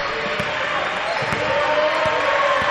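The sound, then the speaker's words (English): A basketball is dribbled during a basketball game, making several dull, evenly spaced bounces heard through the steady roar of a crowd. “Cougars content to let George Ranch dribble this out.”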